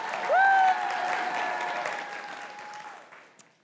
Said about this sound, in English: So, let's give a warm welcome to our first storyteller